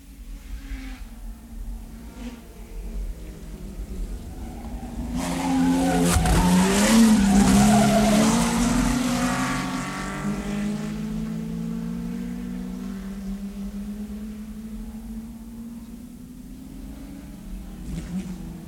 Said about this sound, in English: Nowadays, of course, men create their own furies in a Grand Prix motor race.